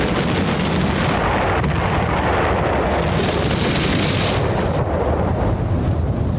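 Deep, continuous roar as a small gasoline tank of about 20 gallons, ignited by methane from a garbage dump, explodes into fire: a loud, steady rumbling wash of noise that holds throughout, with no separate blasts.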